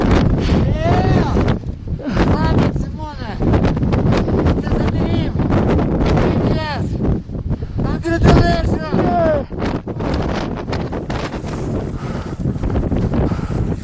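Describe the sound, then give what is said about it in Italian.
Strong wind blows against the microphone on the summit of Gasherbrum, a high mountain, with a steady loud roar and buffeting. Voices are heard through the wind. “Il vento che soffia contro il microfono.”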